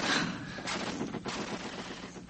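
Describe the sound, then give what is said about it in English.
Gunfire from a fresh Russian assault in street fighting: a loud, dense, continuous crackle of overlapping shots and bursts with no real pause, like sustained machine-gun fire. “Why have they stopped? Maybe just to cool their gun barrels. Heavens. Listen to it. Yeah, it's a fresh assault. The Russians must be making one final onslaught.”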